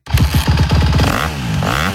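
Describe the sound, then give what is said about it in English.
A Honda motocross bike engine revs loudly. It starts with a choppy, sputtering burst, then settles into a sustained buzzing drone that swells again near the end. “Are you ready to ride? Then get to Big Valley Honda, Northern Nevada's only Honda powerhouse dealer, where the hottest motocross bikes of the season are in stock and ready to go.”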